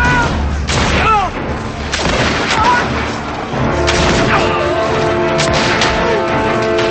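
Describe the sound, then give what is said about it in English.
Musket gunfire rings out in a battle between militiamen and redcoats, with dragoons charging: a dense, continuous barrage of loud booming shots and crashes, with voices mixed into the din. “The militiamen fire and retreat as the redcoats fire. The dragoons ride down the hill. The militiamen take cover and fire at the soldiers.”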